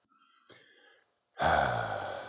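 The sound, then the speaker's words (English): A long, loud breathy exhale during a guided breathing exercise: one sustained rush of air lasting about a second, following a quieter, fainter stretch of sound. “So ready. Begin with an exhale.”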